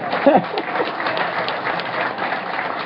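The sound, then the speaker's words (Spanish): A crowd at a community gathering applauds a woman honored as the peasant queen. The clapping is dense and steady, a continuous patter that holds at an even level throughout. “Un aplauso a la reina campesina.”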